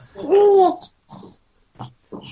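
A baby babbles and coos: one long, voiced vocalization with a wavering pitch, then three shorter, quieter babbling bursts separated by brief pauses.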